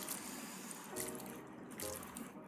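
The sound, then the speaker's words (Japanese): Liquid soup base being stirred into instant noodles gives soft, wet squelching and sloshing in a few faint bursts, with no talk over it. “液体スープ入りました よ、 これも混ぜていきます”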